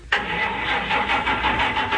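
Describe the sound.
A car engine tries to start. A sudden onset gives way to steady, rough cranking with a faint regular pulsing. The engine never catches, and the cranking holds at an even loudness for about two seconds.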